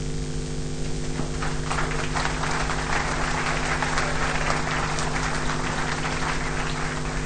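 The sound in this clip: Audience applause at a Christian youth congress, a continuous wash of many hands clapping over a steady low electrical hum, even in loudness from start to finish.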